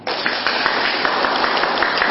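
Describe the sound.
Applause from a Buddhist audience at the close of a dharma talk: dense, steady clapping that holds evenly throughout with no voices over it.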